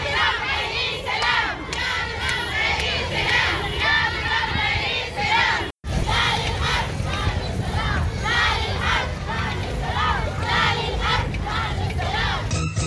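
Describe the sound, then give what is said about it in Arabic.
Women protesters chant slogans in unison at a peaceful march in Nyala demanding an end to the war. The loud, continuous crowd of voices carries rhythmic, repeated phrases throughout, broken only by a momentary silent cut midway. “النساء اليوم الخميس في نيالة موكبا سلميا للمطالبة بوقف الحرب وإحلال السلام، ورفعت المشاركات في الموكب لافتات تدعو الإدارة الأمريكية للتدخل من أجل وقف الحرب الدائرة. ورددت المشاركات هتافات”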